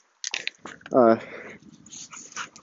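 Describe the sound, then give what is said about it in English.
A dog whines briefly while waiting at a crosswalk on a walk, a short, high, tonal whimper rising out of a person's ongoing talk and scattered street noise. “Hearing the dog whining, it's because we're at a crosswalking.”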